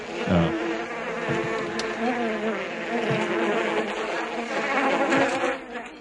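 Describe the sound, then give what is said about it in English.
Buzzing of a green biting horse fly, a continuous droning hum that holds at fairly even loudness through the whole stretch with slight wavering. “I don't like flies. No, and that wasn't just the house fly. That was those green flies that bite. Yeah, horse flies kind of.”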